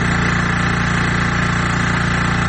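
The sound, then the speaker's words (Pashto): A generator runs at a water point in Kandahar city where people queue for clean water, giving a steady, unbroken droning hum with a low rumbling engine tone that holds at even loudness throughout. “له 2 میاشتو وقفې وروسته د جنراتور دا غږ اوري”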